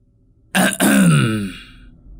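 A man clears his throat outdoors at night beside bushes, one loud rasping clear with a brief catch partway through, its pitch sinking as it trails off into quiet.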